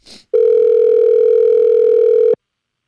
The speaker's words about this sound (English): Let's see if we can merge these calls.